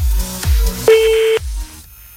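A telephone call being dialed: a steady electronic tone sounds for about half a second, with a few low thuds before and after it.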